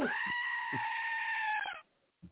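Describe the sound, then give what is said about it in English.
A frightened goat screams in a single loud, harmonic bleat that holds for nearly two seconds and cuts off abruptly. A faint short sound follows alone. “It even terrifies the goat. Even terrified the goat. That was a scared scream.”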